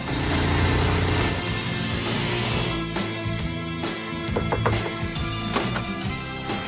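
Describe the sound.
A car driving fast along a road, its engine giving a loud, continuous roar with some rise and fall in intensity and no voices over it.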